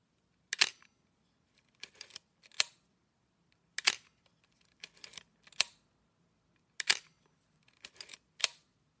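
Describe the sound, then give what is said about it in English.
Shutter clicks of a Pentax K1000 film camera: several sharp mechanical snaps, some in quick pairs, fired at irregular intervals with silence between them. “we step back to the Pentax K1000, which was like the ultimate training camera for generations of student photographers back in the day. And here's what it sounds like.”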